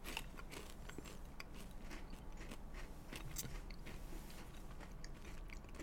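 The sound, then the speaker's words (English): Crunching and chewing of crab-flavored potato chips eaten close to the microphone: a steady, dense crackle of crisp bites and grinding runs on without a break, with no talking. “I got to get through these crab chips. Did you laugh? I just did laugh. Yeah. Okay. Okay, I'm having another crab chip.”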